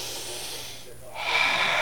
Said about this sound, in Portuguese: É tão bom a gente dar aquela respirada.